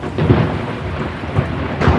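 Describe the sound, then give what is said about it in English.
A thunder and lightning sound effect: low, rolling thunder rumbles over a steady hiss of rain, with a few heavier surges breaking through, and no voices. “Thunder and lightning ripped the sky.”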